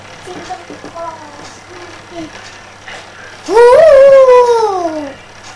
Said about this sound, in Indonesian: Iya, begitu juga dengan anjingnya kan? Guk guk.